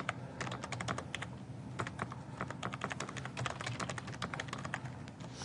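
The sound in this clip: Login credentials being typed on a computer keyboard: many quick, crisp keystrokes in a steady but uneven rhythm, fairly faint, with no voices.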